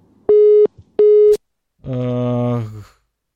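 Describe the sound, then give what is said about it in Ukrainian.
Telephone busy tone after a radio call-in caller's line drops: two steady mid-pitched beeps, then a brief voice. “Чомусь дзвінки обриваються.”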